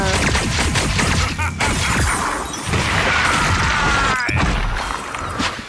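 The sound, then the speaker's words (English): Loud, dense gunfire from a video game: many rapid shots and impacts overlap into a continuous crackling, thudding barrage that hardly lets up, with no talking over it. “I'm realizing that maybe all the shooting might be a little loud, or maybe it will add atmosphere to the podcast.”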